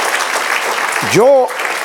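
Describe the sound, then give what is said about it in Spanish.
Congregation applauding in a church: dense, steady clapping runs through the whole clip, with a brief voiced sound rising over it near the end. “Den un aplauso al Señor.”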